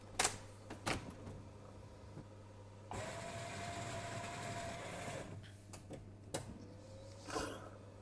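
A coffee grinder motor grinding beans at a coarser setting, a faint steady whirring buzz lasting a couple of seconds, framed by scattered clicks and handling knocks before and after.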